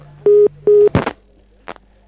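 A telephone line sounds after a radio caller hangs up: two short, steady, mid-pitched tone bursts are followed by a sharp click-like burst and one faint later click.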